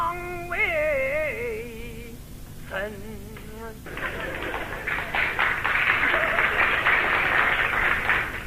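Sparse audience applause breaks out after a sung vocal phrase, a thin but steady patter of clapping that lasts several seconds at moderate loudness.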